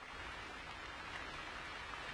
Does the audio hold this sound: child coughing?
no